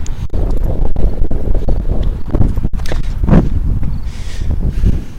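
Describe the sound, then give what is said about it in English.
Wind blowing outdoors, buffeting the microphone with a loud, gusty low roar, broken by a few sharp knocks and thumps. “There's a bit of wind, but it's not as bad as it was the other day when I was out here testing this equipment.”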